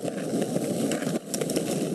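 A skateboard rolls along, its sound proposed as a pedestrian warning for hybrid cars: a steady, gritty rumbling hiss with a brief dip partway through, and no voices.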